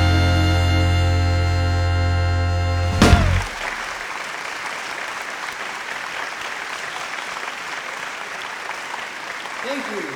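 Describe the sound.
Audience applause welcoming two hosts, a dense, steady wash of clapping that swells in after a sustained musical chord ends and carries on at an even level.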